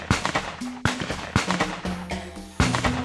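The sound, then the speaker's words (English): Several sharp, cracking shots from a semi-automatic rifle, spaced irregularly, each a loud burst that quickly fades. “So a semi-automatic rifle is a good way to go. Aim for the head and fill the bastards full of lead. It's $400 at Walmart and sounds like this.”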